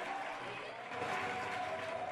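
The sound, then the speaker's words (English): Soft applause from a gathering, a faint but continuous patter of clapping that stays even throughout with no single voice standing out. “She applauds and waves with a smile, then leaves again.”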